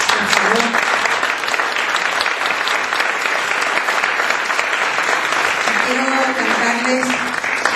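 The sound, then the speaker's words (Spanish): Audience applause after a song at a live music performance, a dense, loud clapping that holds steady throughout, with a voice briefly audible over it near the end. “el aplauso para Osvaldo”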